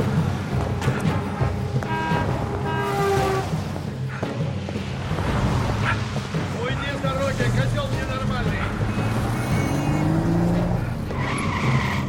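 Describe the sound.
A car on a street, its engine and tire skidding loud and steady throughout, mixed with music and voices in a film scene.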